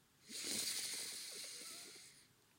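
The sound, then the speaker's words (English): One long, deep breath is drawn in through the nose during a guided breathing exercise, lying down. The soft, airy rush swells quickly, then gently tapers over about two seconds and ends in quiet. “I want you to start with some nice deep breaths in through the nose”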